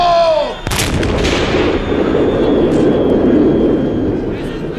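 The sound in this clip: A firing squad's rifle volley cracks out at an execution right after a shouted voice, one sharp blast that turns into a long, rolling rumble slowly fading away.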